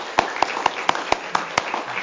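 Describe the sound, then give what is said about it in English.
Church audience applause for two youth helpers comes as seven sharp, evenly spaced claps in a steady rhythm, followed by fainter scattered sound. “So let's give them both a round of applause.”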